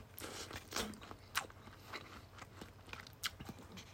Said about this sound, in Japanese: 例によって咀嚼音がしますのでご注意ください。ではいただきます。